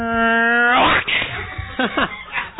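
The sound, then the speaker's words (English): A voice imitating two cats fighting: a drawn-out yowl climbing in pitch, followed by rough, scratchy bursts and strangled wails. “I heard a cat give another cat a short arm sickle. It sounds something like this.”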